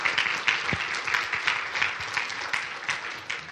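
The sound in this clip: An audience claps in steady, dense applause to welcome a speaker to the stage, with a few louder individual claps standing out from the crowd.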